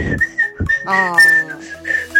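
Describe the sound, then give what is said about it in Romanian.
Someone whistles a wavering run of high, clear notes that glide and shift in pitch, fairly loud and close, with a few short, low breathy bursts breaking in between phrases. “Nu știu cum am putut să fluier, dar totuși foarte îmi place bine.”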